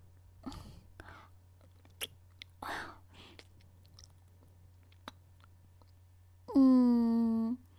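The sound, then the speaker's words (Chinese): Wet licking and mouth sounds, quiet and intimate: a few scattered smacks and clicks with soft whispery breaths, then a sustained hummed vocal tone near the end. “很特别的味道。舔一舔。”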